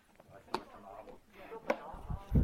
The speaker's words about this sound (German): Aber trotzdem mache ich den Deckel wieder zu.